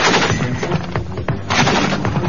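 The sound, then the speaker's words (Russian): Loud, rapid bursts of gunfire from a Utes 12.7 mm heavy machine gun of naval infantry, rated at 700 to 800 rounds per minute, rattling in a dense, nearly continuous stream of shots. “Специальным вооружением морской пехоты является тяжелый пулемет «Утес», принят на вооружение в середине 70-х годов.”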